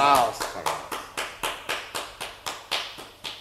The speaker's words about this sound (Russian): Мсье и мадам Кальси, я слышу сверху аплодисменты.